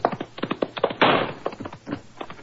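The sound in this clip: A single gunshot from a service revolver in a Sherlock Holmes audio drama, fired at a fleeing man: one sharp, loud burst in the middle, surrounded by a run of dull, rhythmic thumps.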